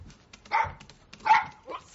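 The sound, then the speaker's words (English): An aggressive dog that had been attacking a person barks three times, each bark a short, loud, tonal burst separated by brief pauses, with no talk over it. “Your dog was attacking me, and I had to run, and I ran into you. What is it with you and this dog?”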